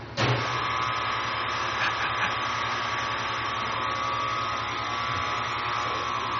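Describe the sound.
Steady mechanical hum of a sump pump motor running while the pump backs up. The drone is continuous and even, with a constant pitch and no pauses throughout.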